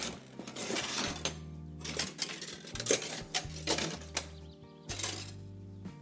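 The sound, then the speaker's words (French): Cream being whipped in a bowl with a hand whisk: quick, irregular metallic clinking and scraping strokes, fairly faint, with no talk. “Et donc je vais fouetter ma crème. Je vais la rendre en chantilly.”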